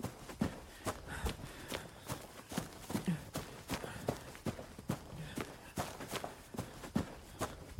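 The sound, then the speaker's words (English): Running footsteps through woods: many quick, evenly spaced impacts in a steady hurried rhythm, fairly faint and continuing throughout, with no clear voices. “I just blindly ran through the woods.”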